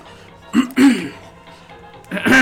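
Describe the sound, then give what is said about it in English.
A man clears his throat in a few rough, voiced bursts separated by quiet gaps, with the last burst near the end. “He clears his throat”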